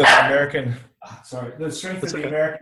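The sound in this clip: A pet dog named in the talk as wanting to go out barks and yelps in a few short, rough bursts. A brief gap breaks the run of barks.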